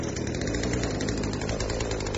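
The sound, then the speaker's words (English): A chainsaw brought along for a plumbing job runs in a steady, loud, buzzing engine drone that holds an even pitch throughout, with no talking. “A chainsaw? Really, Harry? I mean, what is this, some kind of Halloween horror movie? You bring a chainsaw for plumbing?”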